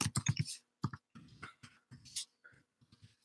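Faint keyboard typing as a book title and its author's name are entered, with several quick bursts of light clicks separated by short pauses.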